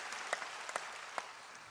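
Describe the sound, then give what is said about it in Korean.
Faint, scattered clapping from a church audience: a few separate claps over soft background hiss, never building into full applause. “위대하신 하나님께 쓰임 받으시길 원하여 우리 하나님께 박수합니다.”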